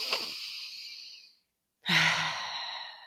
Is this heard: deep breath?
yes

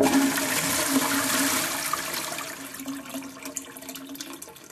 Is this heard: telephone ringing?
no

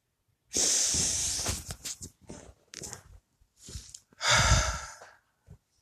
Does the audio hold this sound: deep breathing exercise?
yes

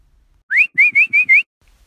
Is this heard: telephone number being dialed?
no

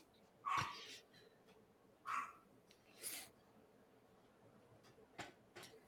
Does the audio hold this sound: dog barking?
yes

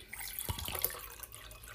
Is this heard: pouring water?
yes

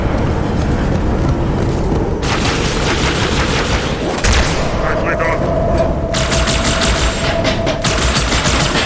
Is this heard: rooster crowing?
no

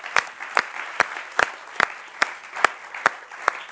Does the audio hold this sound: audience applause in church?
yes

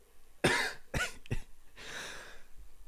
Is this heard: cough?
yes

